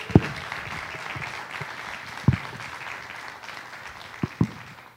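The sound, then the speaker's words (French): A church audience applauding, with a steady wash of clapping under a few sharp, louder claps and thumps, the whole sound moderately quiet and fading slightly near the close. “Alors, acclame très fort le Seigneur Jésus-Christ pour cela.”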